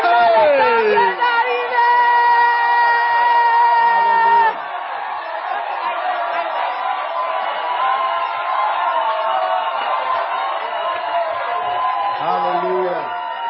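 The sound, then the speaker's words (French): An audience at a church camp cheers and shouts in praise. Loud raised voices fill the first few seconds, then a softer, sustained crowd roar carries on, with whoops rising near the end. “Clap your hands for Rusty. Acclamez le Seigneur pour la vie de Rusty. Sit down and clap your hands for Jesus. Et acclamer le Seigneur.”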